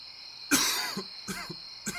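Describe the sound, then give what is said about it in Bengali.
Coughing in a room at night: three short, dry bursts, the first the loudest, separated by brief quiet gaps, with no voices. “ঘরে কে কাশল সে নিজে কি কিন্তু তার তো কাশি হয়নি অথচ কিছুক্ষণ থেকেই যেন খুক খুক শব্দ শুনতে পাচ্ছে সে”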